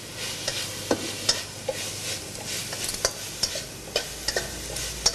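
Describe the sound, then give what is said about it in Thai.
Holy basil and dried chili stir-fry in a pan, a soft steady sizzle running beneath many sharp, irregular clicks and scrapes of the utensil against the pan. “ใช้เวลาผัดอีกเล็กน้อยนะครับ”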